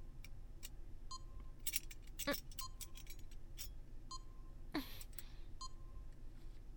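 Keys jangling in a few faint, scattered metallic clinks over low background hiss, with several short, steady electronic beeps between them.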